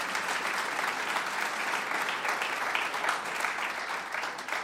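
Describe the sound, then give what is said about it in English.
A church audience applauds over the Easter weekend services to thank the volunteers; dense, steady clapping runs unbroken at an even, fairly loud level for the whole stretch. “We put our hands together and welcome or thank the hundreds of volunteers who made all of the Easter weekend services happen.”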